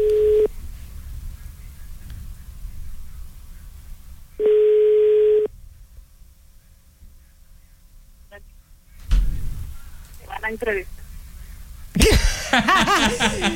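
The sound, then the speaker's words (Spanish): A telephone line tone plays while a call is being dialed. Two steady mid-pitched tones sound, one brief and one about a second long, separated by quiet. A burst of noise and clicks follows, and people talk toward the end. “Din, din. Marcando”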